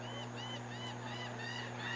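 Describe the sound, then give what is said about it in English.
Gull-like cries from a flock flying over a ballpark during a baseball game: a series of harsh, rising-and-falling squawks repeating over a steady low hum. “As a flock of seagulls is deciding to fly over the ballpark.”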